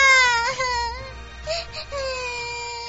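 A child cries loudly in a continuous, high wailing tone, with a few brief breaks between sobbing phrases.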